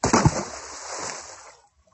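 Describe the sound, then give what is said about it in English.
A man falls into a well with a sudden loud splash, followed by a rushing wash of water that dies away in about a second and a half. “He went to the well to pull up the water. But he fell in with a splash.”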